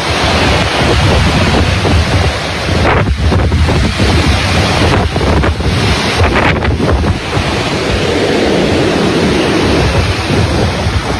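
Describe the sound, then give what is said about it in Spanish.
Strong wind blowing at night in Pucón, a loud, continuous roaring rush with surging gusts and no voices. “ustedes pueden escuchar parte de lo que es el viento reinante que está en la zona de Pucón”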